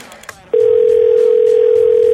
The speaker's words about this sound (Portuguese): vamos ligar aqui pra uma pessoa